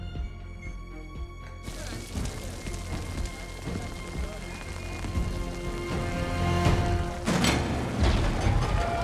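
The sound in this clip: Steady rain falling, a dense continuous patter and hiss that swells slightly toward the end, with faint sustained tones and low rumbling underneath.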